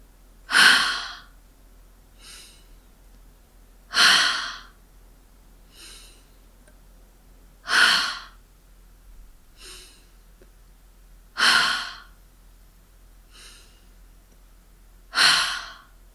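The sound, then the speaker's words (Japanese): Slow, steady breathing during a relaxation exercise, each breath drawn in naturally through the nose so the belly expands. Five strong, airy breaths come about every four seconds, with fainter, softer breaths between them. “息を吸うときは自然に鼻から息が入ってお腹が膨らみます。”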